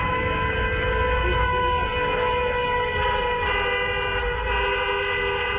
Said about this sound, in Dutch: Ja, toeterende auto's en dat soort dingen. Dat gebeurt hier dus vaak.